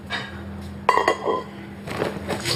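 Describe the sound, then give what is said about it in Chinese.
Metal cooking pot clanking as it is handed over, a sharp metallic clank followed by a few softer knocks and rattles, fairly quiet. “那你要的锅我带给你带来”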